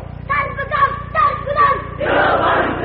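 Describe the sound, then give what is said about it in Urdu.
A crowd at a political gathering loudly chants a slogan in unison. A few rhythmic shouted phrases from many voices swell into a broader, sustained roar. “سیدھا سیدھا نعرہ لگاؤ اور زور سے”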